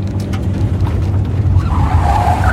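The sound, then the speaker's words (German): Old Chevrolet swerving sharply off a highway onto a gravel road: loud, steady engine rumble with skidding tire noise throughout and a brief squeal near the end, with no voices. “Plötzlich schlug er das Lenkrad ein und bog scharf auf eine Schotterpiste ab.”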